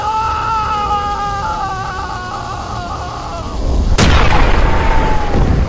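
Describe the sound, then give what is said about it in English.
A hollow boom from an anti-matter bomb erupts suddenly after a stretch of wavering, whining tones, then gives way to a loud, sustained roaring rumble. “Ryan ducked away at the familiar hollow boom, bracing himself for the bizarre sucking feeling that came from the anti-mat bombs.”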